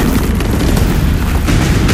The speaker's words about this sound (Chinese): 枪声骤起，守军毫无防备，仓促应战。